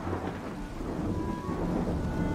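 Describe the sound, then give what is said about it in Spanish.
Thunderstorm on an April morning, with pouring rain as a dense, continuous roar and low rumbling thunder woven through it, all fairly quiet and steady. “una tormenta gruñona estuvo tronando y descargando lluvia sin parar durante una hora seguida.”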